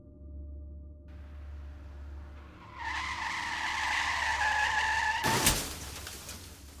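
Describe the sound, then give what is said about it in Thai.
Tires squeal and skid on a road for a few seconds before two cars crash into each other in one loud, sharp impact, all over a steady low engine rumble with no voices. “ครั้งนี้ผมยืนอยู่ที่ริมถนนในขณะที่มองดูรถสองคันพุ่งชนประสานกันต่อหน้าผม”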